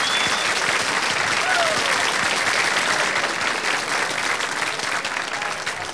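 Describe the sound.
Enthusiastic audience applause at an Afro-Cuban jazz concert, loud and dense, with clapping sustained evenly throughout and easing only slightly toward the end.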